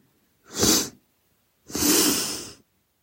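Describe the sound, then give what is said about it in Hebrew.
Two quick breaths of air drawn in during a breathing exercise: a short, loud, breathy pull, a pause, then a longer second intake. No one talks. “ההנחיה היא להכניס אוויר פעמיים, זאת אומרת שאיפה.”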